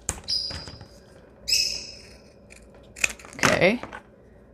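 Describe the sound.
Scissors cutting, a few short, crisp snips separated by quiet gaps, with a voice speaking briefly among them.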